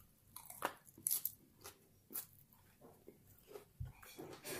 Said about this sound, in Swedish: jag håller på med kebabtallrik här som sagt, så att jag vill helst äta den